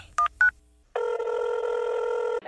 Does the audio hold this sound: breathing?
no